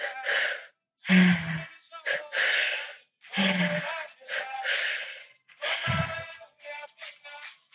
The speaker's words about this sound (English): Let's go 10 more breaths. Give these everything you've got.